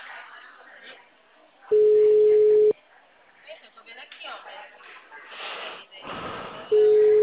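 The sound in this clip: Unanswered telephone ringback from a call to a closed town hall in Brazil: two long, steady, single-pitched tones about five seconds apart, with voices talking in the pause between them.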